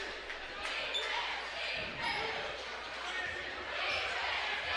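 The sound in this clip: A basketball is dribbled on the court during a game between Jonesboro and the Hurricane while a play-by-play commentator talks steadily over a constant crowd murmur. The bounces are hard to pick out under the voice and crowd noise.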